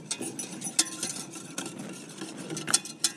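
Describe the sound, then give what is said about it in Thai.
A whisk stirring a vitamin B3 mixture dissolved in water: light, irregular metallic scraping and ticking strokes, fairly soft and continuous, with occasional sharper clinks. “เราจะใช้ตะกร้อคนก่อนก็ได้นะคะเพื่อให้ส่วนผสมมันเข้ากัน”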